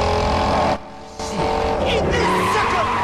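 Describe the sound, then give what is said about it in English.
A car roaring under nitrous oxide boost at high speed, its engine loud and continuous apart from one brief dip, then tires squealing and skidding as the roar returns. “Pierce presses the nitrous oxide button on the steering wheel, and he's thrown back in his seat. The speedo reaches 100 as he roars right up behind the Challenger.”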